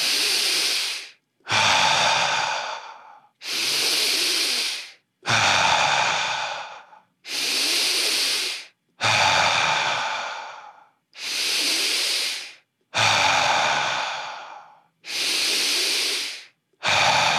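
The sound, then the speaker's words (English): Deep, slow breathing, drawn in through the nose and let out through the mouth, makes many long breathy hisses in an even rhythm, each breath separated by a brief quiet pause, with no talking. “Now 10 breaths together and I'll count. Inhale through your nose, exhale through your mouth.”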